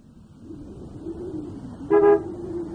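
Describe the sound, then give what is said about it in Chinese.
A sedan pulls up at the doorway of a house with a single short, loud horn toot near the end, heard over a steady low engine rumble. “在板垣家门口，板垣的轿车开了过来，中泽拉开车门，板垣走下车来。”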